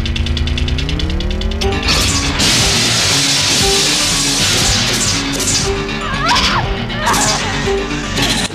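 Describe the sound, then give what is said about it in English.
Pillows exploding as they are shot in a video game: a few loud, crunchy smashing bursts over a continuous game noise bed, with a voice talking at the start. “You gotta shoot the pillows. That pillows exploded was awesome, dude.”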